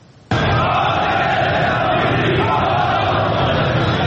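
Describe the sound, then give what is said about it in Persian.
A crowd of steel workers demonstrating in the streets of Ahvaz bursts in abruptly with loud, sustained shouting and chanting that stays dense throughout. “تظاهرات روز دوشنبه کارگران فولاد اهواز در خیابان‌های این شهر. این کارگران ضمن حمایت از کارگران بازداشت شده خواستار آزادی آنها شدند.”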